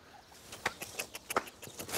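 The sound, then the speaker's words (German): Faint short calls and light pattering from young turkeys, scattered in brief bursts over a low, steady background. “Und wenn alle Proben negativ sind, ziehen diese jungen Puten zur großen Herde bei den Weideställen und unterstützen Christines Zucht.”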